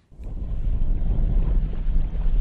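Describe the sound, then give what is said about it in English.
Wind rushes loudly and steadily around a windsurfer's large sail as he heads out from a harbour in Poland. A dense, low rumbling roar begins after a brief quiet moment and holds strongly to the end, with no voices. “heading out from a harbour in Poland, using his body to control a large sail being whipped around by the wind.”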